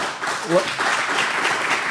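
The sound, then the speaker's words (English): Audience applause during a panel question session: a steady wash of many hands clapping at moderate level, with a voice briefly audible through it. “If perhaps we could save our applause for the end and give us a little more time to get to all of these wonderful questions that we have here.”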